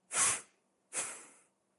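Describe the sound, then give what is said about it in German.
Two sharp nasal breaths during a power-breathing yoga session, each a short, hissy burst of about half a second separated by a brief pause. “Entspannen. Nochmal einatmen und”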